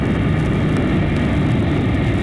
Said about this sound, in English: Now climb, robot plane. Follow the flying man.